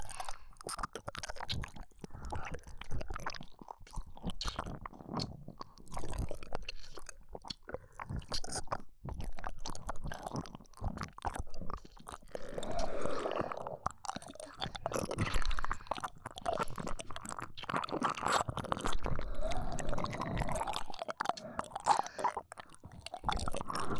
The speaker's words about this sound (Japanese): ここも舐めてほしいんですか？いいですよ。